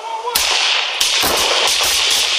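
Police open fire during a shooting: a rapid volley of loud, sharp gunshots, with many cracks in quick succession after the first shot.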